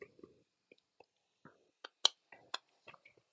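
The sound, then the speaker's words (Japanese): Chewing a piece of Alfort chocolate biscuit: a quiet, irregular series of crisp crunches and small clicks, with short gaps between bites. “僕はアルフォートを一かけら食べて生きている。”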